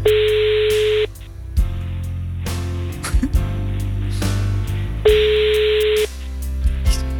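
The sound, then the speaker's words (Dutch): Ringback tone of a phone call to a mobile number: two steady, buzzy one-second tones about four seconds apart, over a low constant hum with a few faint clicks between them. “Ik ga nu bellen.”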